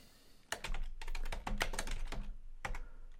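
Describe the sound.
Rapid typing on a computer keyboard as a name is entered for a new game project, with many quick, crisp keystrokes in a steady burst after a brief quiet start, with no talk.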